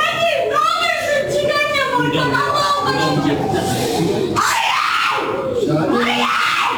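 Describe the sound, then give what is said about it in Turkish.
A grieving mother wails in a hospital corridor, with loud, sustained anguished cries whose pitch sweeps up and down and breaks between long drawn-out sobs. “Annesinin hastane koridorundaki feryadı yürekleri yaktı. Acılı anne kendini yerden yere attı. Hastane koridoru feryatta yankılandı.”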